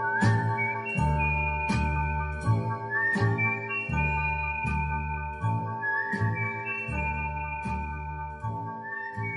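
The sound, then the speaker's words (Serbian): A whistled tune carries an old signal melody within a 1962 song, the clear, bright notes gliding and held over a steady, rhythmic instrumental accompaniment with regular beats, alone without any talking. “Zviždim tad naš stari znak.”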